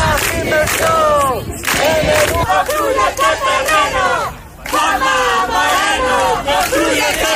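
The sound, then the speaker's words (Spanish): Crowd chanting at a rally led by a parents' association demanding a new secondary school on the Cuesta de Verónica land; many voices shout loud, rhythmic slogans in unison, in repeated phrases separated by brief pauses. “Sonido de esa concentración de ayer”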